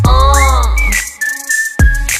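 Whistling in a song: a clear, high whistled tone glides upward, then holds steady for about a second before percussive beats return at the end.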